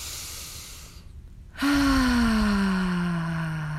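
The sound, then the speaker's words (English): A deep breath drawn in during a guided breathing exercise: a soft, airy inhale, then a brief hush, followed by a loud, sustained tone that slowly falls in pitch. “So I'd like you to take another deep breath.”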